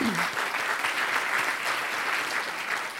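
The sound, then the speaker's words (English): Audience applause fills a New York Historical evening event honoring its Chairman's Council, dense, steady clapping that holds at an even level from start to finish. “I'd also like to recognize and thank our Chairman's Council with us tonight, and for all their great work and support. Let's give them all a hand.”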